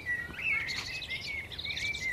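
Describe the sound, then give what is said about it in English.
Blackbird singing in the morning, a faint run of clear, high warbling phrases with short fluttering notes, continuing steadily throughout. “And the blackbird is still singing.”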